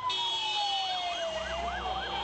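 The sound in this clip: Ambulance siren at a street scene after several explosions near a mosque: a faint, slowly descending wail shifts into a rapid wavering warble.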